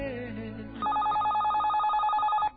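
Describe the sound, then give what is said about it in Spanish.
Telephone ringing with a fast electronic trill, a steady run of rapid, even pulses at a clear, high pitch that begins after a moment of softer sound and stops abruptly. “mi amor, contesta el teléfono.”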